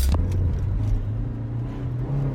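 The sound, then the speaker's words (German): Car engine rumbling as the car drives, a steady, low, continuous drone with little change in loudness and no voices over it. “Da zum Auto. Ich fahre.”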